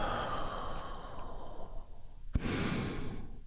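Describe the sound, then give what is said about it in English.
A deep breath taken in slowly and then released in a long, soft exhale, heard alone with a small click partway through. “You do that by taking a great big healing breath right now. Here we go. And release.”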